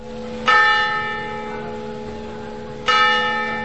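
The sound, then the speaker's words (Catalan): Church bells in Flix strike twelve o'clock, two loud resonant strikes about two and a half seconds apart, each ringing on in a long, slowly fading hum, with no voices. “Les campanes de Flix toquen les 12.”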